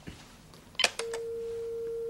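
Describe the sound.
A telephone rings on the line after a number is dialed: a brief clatter and click, then a single steady tone that starts and holds unchanged, moderately loud, to the end.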